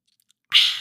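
Coffee sipped through a straw: one short, airy, hissing slurp that starts abruptly after a near-silent pause.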